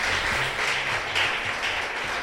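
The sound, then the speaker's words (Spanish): A church audience claps in praise during a worship service. The hand-clapping is steady and dense, with faint low tones underneath. “Le puede dar palmas al Rey de Reyes y señores,”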